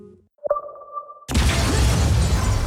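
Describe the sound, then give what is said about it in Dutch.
An explosion in an apartment building begins with a clear, ringing tonal ping. A sudden loud, broad roaring blast then cuts in and carries on steadily to the end. “De explosie in het flatgebouw waarbij een vrouwelijke rechercheur is omgekomen.”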